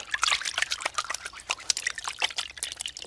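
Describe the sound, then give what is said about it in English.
Running water splashes over hands being washed, a steady, irregular wet patter and trickle with no pause or talk across the whole stretch. “It's morning. Every day I wash my hands.”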